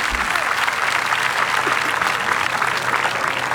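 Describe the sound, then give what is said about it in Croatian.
Audience applause at an outdoor summer evening concert in Split: continuous, dense clapping at a steady, fairly loud level from start to end. “Hvala publici na pljesku”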